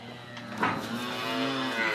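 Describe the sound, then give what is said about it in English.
A small black dairy cow mooing in the distance from a field near a proposed fracking site at Singleton, UK: one low, drawn-out call, faint and steady, with no voices. “That little black cow in the distance there, it's a lovely shape on it”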